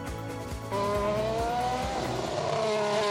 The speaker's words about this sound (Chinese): 赛车在跑道上呼啸而过，追求速度极致的 F1 赛车，令无数车迷看得血脉奔张